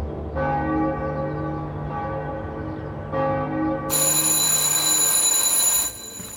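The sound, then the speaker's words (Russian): Church bells ring out in a city: a lower bell strikes twice with long resonant hums, then a brighter, higher bell joins and sustains loudly before cutting off. “В городе звенят колокола.”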